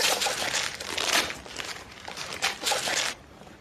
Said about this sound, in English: What is it? I'm going to rip it. All right, I'll rip it.